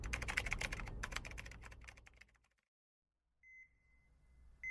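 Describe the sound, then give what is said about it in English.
Furious, rapid typing on a computer keyboard clatters densely for over two seconds, then stops; after a silence comes a short electronic beep and a faint lingering tone. “He was furiously hammering away at his computer”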